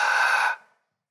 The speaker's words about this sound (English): open your mouth and take a big breath in like this